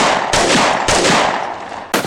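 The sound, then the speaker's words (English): Gunshots from a handgun: a few loud, sharp blasts, each trailing off in a long rumbling decay before the next, with no voices. “Fayshawn's weapon roared as her first two bullets cut down the reacher while the other bullet struck Ray Ray in the neck.”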